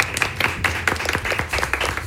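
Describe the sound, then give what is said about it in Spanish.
Audience applause for a guest on a studio show, a brisk, irregular clatter of hands clapping with sharp individual slaps standing out over a busy, tonal background. “Con un aplauso para Rodrigo, pues.”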